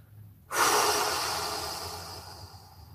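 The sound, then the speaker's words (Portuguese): A forceful breath blown out with the head tilted back during a guided breathing exercise: it begins abruptly after a short quiet spell, then rushes on as one long airy exhale that slowly fades. “Virar a cabeça para trás, comandar mentalmente, eu sou serenidade da mente, e soprar.”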